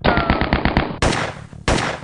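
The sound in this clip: Gunfire: a rapid, loud burst of repeated shots, then two heavier, sharper blasts with a short pause between them, with no talk.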